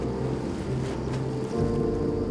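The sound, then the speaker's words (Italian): Boats moving on the water in a bay, heard as a steady low engine drone with a broad wash of water and wind noise, constant in level throughout. “Scendi giù e vai nella baia e vedi il campo in mezzo all'acqua, quindi è come dire particolare, no? E il suono delle barche attorno, eccetera, mi ricorda tante cose.”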